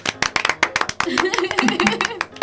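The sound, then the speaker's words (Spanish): A few people clapping for Tele Ciudadana's third anniversary, quick, irregular claps with voices talking over them. “Tele Ciudadana cumple 3 añotes, así que pues un aplauso, ¿no?”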